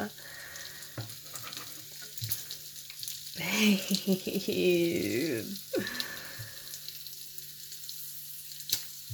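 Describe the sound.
Food frying while breakfast is cooked, a steady soft sizzle running throughout, with stirring and a louder crackling burst in the middle, plus a few sharp clicks.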